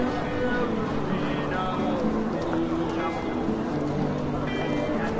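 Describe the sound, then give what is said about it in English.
Bustling street ambience: a dense, steady wash of traffic-like rumble and murmuring voices runs loud and unbroken throughout, with no single event standing out. “add in the further ambience of a bustling street environment.”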